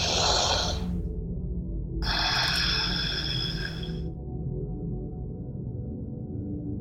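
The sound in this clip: A deep breath taken before chanting: two long, airy rushes of breath separated by a short pause, soft and hissing over a low steady hum, with no voice.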